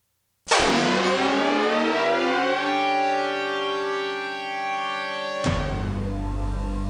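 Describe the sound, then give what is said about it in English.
An Amber Alert emergency alert tone from its early years: a loud, harsh, steady electronic tone that holds for about five seconds, then switches abruptly to a different, lower buzzing tone. “Okay, I don't know if they use the sound anymore. Probably because it's making people cry. Yeah, because this is definitely in the early years of the Amber Alert, so I think it might be more standardized now.”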